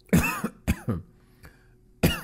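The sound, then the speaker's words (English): A man coughing while eating and talking: a few sharp, harsh coughs in quick bursts with short pauses, one faint, then a final strong cough, all alone without speech. “Why am I coughing? Because I'm eating and why I'm talking to you guys.”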